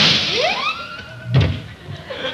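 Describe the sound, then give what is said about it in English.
Gunshot sound effect in a 1946 Western comedy sketch: a rising whistling sweep, then a single dull, thumping crack that fades quickly. “Watch me light my cigarette by shooting it.”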